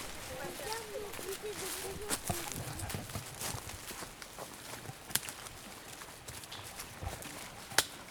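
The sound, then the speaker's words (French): Footsteps tread through forest undergrowth, an irregular series of crunching steps with a few sharper snaps and rustles standing out. “On y va à la forêt. On est en train de marcher dans les sous-bois.”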